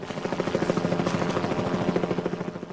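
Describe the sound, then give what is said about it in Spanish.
A helicopter flies in the sky, its rotor beating in a rapid, even thumping that runs steadily through the whole stretch at moderate loudness, with no voices. “se detienen al divisar el helicóptero en el cielo.”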